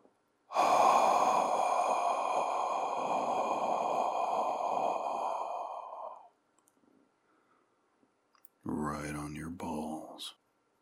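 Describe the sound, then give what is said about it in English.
A long, slow, steamy exhale on a bench, a steady breathy rush lasting several seconds before it fades out. After a pause comes a short voiced sound. “First, I let out a long, slow, steamy exhale.”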